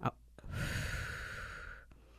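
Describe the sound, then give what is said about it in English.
A deep breath is taken during a guided relaxation and centring exercise: a single long, airy, steady rush of breath, soft and alone, after a brief click at the start. “Take a deep breath in. Deep breath out.”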